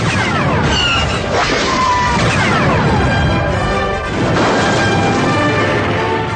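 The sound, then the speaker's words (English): Missiles blast through a sheet metal hangar wall in a loud, dense, roaring crash and rumble that barely lets up, dipping briefly before a second surge of heavy blasting noise. “Four missiles flashed instantaneously to the rear of the hangar and blew the sheet metal panel into oblivion.”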